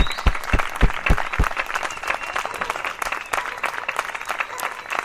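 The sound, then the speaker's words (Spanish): Applause from an audience at an event marking an international day of struggle: dense, continuous clapping from many hands, loud and sustained for several seconds, with a few sharp individual claps standing out early on. “así que nos merecemos un aplauso entre todos y todas.”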